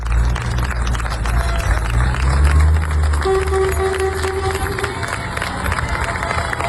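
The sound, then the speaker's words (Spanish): Townspeople of Niebla cheer and applaud a farewell to UME troops who fought a forest fire. Loud, continuous crowd noise with clapping, shouts and a brief steady tone in the middle. “Este es el sonido de la despedida del pueblo de Niebla, los efectivos de la UME que han estado trabajando día y noche hasta dar por estabilizado el que ya es el mayor incendio forestal de la historia de Andalucía.”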